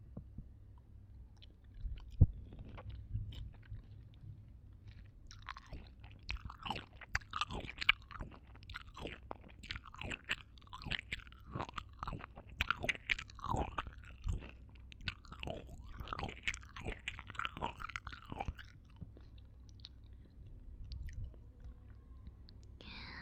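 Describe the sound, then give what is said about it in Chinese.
Soft, wet chewing of something sweet being eaten, with many small clicks and smacks that start after a few quiet seconds and continue steadily to the end, faint and intimate. “再吃一个好不好？吃了才有甜蜜呢。”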